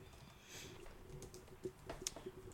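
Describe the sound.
Faint typing on a computer keyboard: a few soft, irregular key clicks over a low background hiss.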